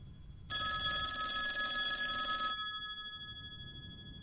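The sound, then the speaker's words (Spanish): Ringback tone of an outgoing phone call: one steady electronic ring lasting about two seconds, bright and buzzy with stacked tonal partials, then a fading tail into quiet. “Una llamada. Segundo tono.”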